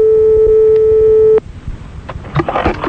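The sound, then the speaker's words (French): An outgoing telephone call rings through in a radio studio: a single steady, pitched tone holds for over a second, then cuts off abruptly, leaving faint clicks and low noise. “Bon, on appelle un monsieur madame Delon dans le studio. Direct.”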